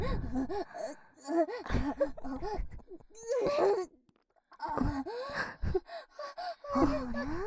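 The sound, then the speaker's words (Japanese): A woman in a maid role gives repeated breathy moans, gasps and whimpers with animal-like rising and falling pitch, coming in uneven bursts with a brief pause midway. “このメイドさっきから獣のような喘ぎ声しか出してない”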